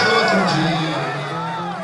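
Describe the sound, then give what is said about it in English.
Supporters cheer and chant as they carry former Brazilian President Luiz Inácio Lula da Silva through a crowd of thousands. Loud massed voices blend into a sustained, sung roar that fades slightly toward the end. “That's the sound of supporters carrying da Silva through a crowd of thousands earlier in the day.”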